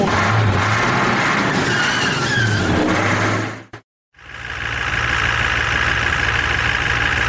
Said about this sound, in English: It is a great honor to be driving so many of my favorite podcasters around. I am going to drive especially quickly as a mark of my respect for their work.